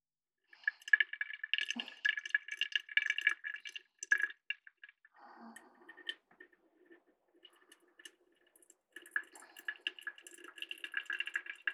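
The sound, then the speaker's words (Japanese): Faint trickling of hot water poured into a drip coffee filter, in uneven bursts of light splashing and dripping that pause briefly midway, then resume. “ドリップしなくなってきましたね。ではもう少しお湯を追加していきますか。”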